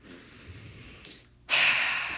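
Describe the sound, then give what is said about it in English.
One deep breath comes as a loud, breathy rush that starts partway through after a quiet stretch and holds steady to the end. “And I just took a deep breath. I'm just like sending breath to that area.”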